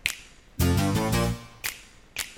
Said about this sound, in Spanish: Son los chasquidos. Ah, sí. Ahí va.